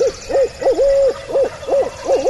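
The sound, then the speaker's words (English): A man hoots the barred owl call through cupped hands: six loud, low, rhythmic hoots, the third drawn out much longer, each bending quickly up and down. “He cups his hands around his mouth and hoots a perfect "Who cooks for you, cooks for you all" of the barred owl.”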